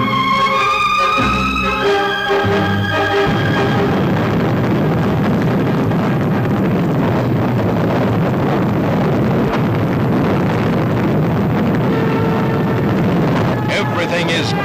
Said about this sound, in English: Takeoff of the Atlas, blasted off by 360,000 pounds of thrust, carries the Mercury gracefully skyward.